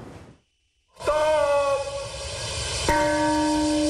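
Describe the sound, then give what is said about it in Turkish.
A bell tolls twice at a memorial ceremony in Hiroshima, Japan. Each loud strike rings out with a long, sustained metallic hum, and the second comes about two seconds after the first, following a brief silence. “Çanlar kurbanlar için çaldı.”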